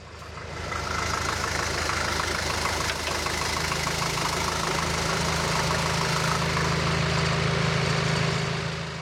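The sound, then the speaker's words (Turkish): A car engine idles in neutral, a steady, unbroken low rumble with a mid-range chug that holds an even level for the whole stretch. “Arabayı boşa alıyorum. Vitesi boşa aldım. Bana sinyal verdiğinde çalıştıracağım.”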